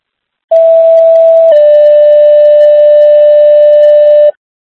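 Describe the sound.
Dispatch alert tones sound as a two-tone sequence: a short higher tone, then a long, slightly lower steady tone, about four seconds in all. Both are loud and pure, with silence before and after.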